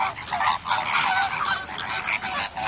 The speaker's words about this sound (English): The bird's Latin name is Phoenicopterus ruber. And if you found them in the wild, they might sound like this.